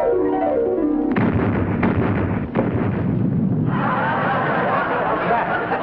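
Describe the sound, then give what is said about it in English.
A fuel drum exploding during an attack on a base, heard as a loud, sustained blasting roar broken by a few sharp bursts. “I think a fuel drum exploded.”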